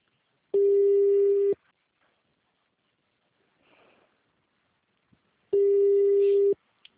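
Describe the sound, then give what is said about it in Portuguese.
Ringback tone of an outgoing telephone call being placed: two identical steady beeps, each about a second long, separated by a long quiet gap with only faint background noise. “Chamando.”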